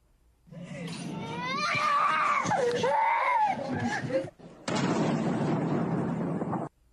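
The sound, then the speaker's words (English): A baby cries during airstrikes overhead in Ukraine during the invasion. High, wavering wails ride over a dense rumble, then a short gap gives way to a few seconds of loud, steady roaring noise. “You hear a little baby crying in airstrikes above going on.”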